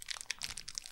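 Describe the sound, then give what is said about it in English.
Faint, rapid crinkling and rattling of a Snickers wrapper on a double-bar package, a steady patter of tiny crisp crackles with no pauses. “Yeah, I hear a weird rattling. What's that? That's the sound of a Snickers bar.”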